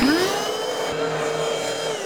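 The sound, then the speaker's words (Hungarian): Vacuum cleaner running, a steady whirring roar with a high motor whine that climbs in pitch as it spins up at the start, then holds a constant loud drone throughout with no talk. “Tudja, hogy mennyit fogyaszt a porszívója?”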